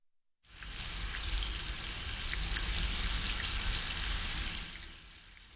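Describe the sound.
Sugar syrup boils in a pot with a steady, dense bubbling hiss and crackle, rising in abruptly and easing slightly near the end.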